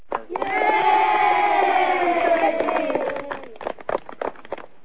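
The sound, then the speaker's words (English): Excited cheering from children's voices, a loud, sustained, high wavering whoop lasting about three seconds, then trailing off into scattered short calls. “So here's a tidbit for you. your little children getting all excited.”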